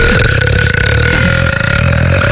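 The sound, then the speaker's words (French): A long, loud burp from a man who burps in his sleep rumbles without a break for over two seconds, rough and droning, with steady tonal bands running through it. “j'arrête pas de rôter”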